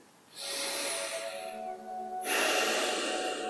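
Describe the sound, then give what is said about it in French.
Deep breaths taken during a guided relaxation exercise, with eyes closed and sitting upright: two long, airy breaths with a faint whistling edge, the second one louder and harsher, heard alone without talk. “je vous invite à prendre quelques grandes respirations profondes, hein, trois grandes respirations profondes”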